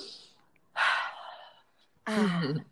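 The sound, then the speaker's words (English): A single deep breath is drawn in loudly and audibly through the mouth, followed shortly by a voice starting to speak. “let me breathe.”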